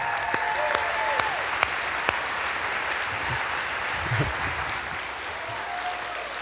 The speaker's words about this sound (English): help me welcome the one, the only, Josh Sullivan. Everybody give him a hand.